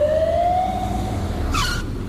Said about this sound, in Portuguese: Queres vir? A boleia de uma ambulância?